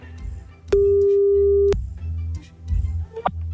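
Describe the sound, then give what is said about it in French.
A telephone line tone sounds while a hung-up call is being redialed: one steady mid-pitched tone lasting about a second, followed by a few soft clicks and low bumps. “Bon, allez hop, on rappelle, c'est parti.”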